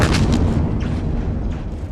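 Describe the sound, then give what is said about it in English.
Deep explosion of a jetpack after crashing into the ground, a loud, sustained booming rumble that fills the whole stretch with dense low roar and scattered crackling bursts, fading only slightly toward the end. “With one final cry, Drexel Roosh plowed into the ground and the jetpack exploded.”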